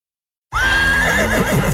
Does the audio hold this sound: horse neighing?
yes